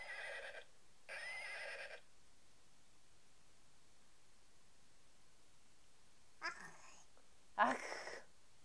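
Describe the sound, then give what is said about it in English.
Faint horse neighing comes in a few short, breathy, noisy bursts: two close together at the start, then a long quiet gap before two more near the end, the last one slightly louder. “There's a horsey.”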